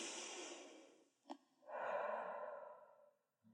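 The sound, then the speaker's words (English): A deep human breath, with a long, airy inhale, a brief catch, then a slow, drawn-out exhale, soft and alone without talk. “Today's story is going to take you 3,000 steps closer to your target. So deep breath.”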